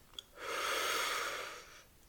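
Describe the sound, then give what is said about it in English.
One long, deep inhalation: a soft, breathy rush of air that swells and holds for about a second and a half, then tapers off, heard alone without talk. “Breathe in.”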